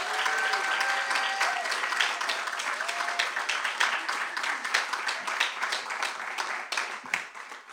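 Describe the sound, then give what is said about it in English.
Audience applause welcomes authors at a bookstore reading: dense, sustained clapping from a crowd that holds steady and thins slightly toward the end. “Please give Tom Lutz and Steph Cha a warm Skylight welcome.”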